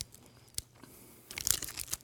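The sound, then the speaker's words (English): Faint crunching bites and chewing on a white chocolate bar with Fruity Pebbles cereal baked in. There is one crisp snap, then a quick cluster of brittle crunches, with no talk. “I don't have that much time, I gotta eat fast. It's like white chocolate with Fruity Pebbles baked in.”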